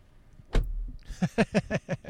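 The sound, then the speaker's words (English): A car door swings shut with a single firm thud while someone stands outside the car. A run of short, evenly spaced sounds follows. “You can say goodbye without the mic, so you could do the closing door.”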